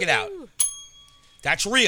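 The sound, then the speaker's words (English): A physical hotel desk bell is struck once, giving a bright ding that rings on with a sustained tone. People speak just before and after it. “Actually, in this particular case, we actually have a physical bell to ring.”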